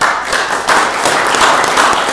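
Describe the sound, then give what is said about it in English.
An audience claps to honour a young two-time state champion, a loud, dense burst of applause with crisp individual hand claps sharpening the texture throughout. “I want you all to give her a clap.”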